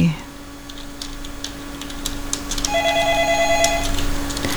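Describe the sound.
Electronic telephone ringing for an incoming call on a radio call-in show, starting partway through as pulsing, warbling tones over a steady low hum, with no talk during the ring.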